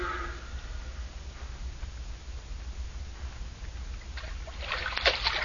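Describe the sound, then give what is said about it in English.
Faint water splashing from someone swimming across an impounded lake, mostly a low steady hum at first, with a few brighter splashes near the end. “They didn't figure on anyone swimming across the impounded lake and climbing on the dam from the rear.”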